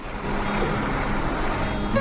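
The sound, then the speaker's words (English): Steady, low engine rumble of a Greyhound bus idling as it prepares to leave, a continuous drone that holds at an even loudness throughout. “The Greyhound bus is preparing to leave.”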